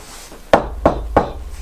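Knocking on a door, three firm, evenly spaced knocks about a third of a second apart, each a dull woody thud with a short ring, fairly loud against a quiet background.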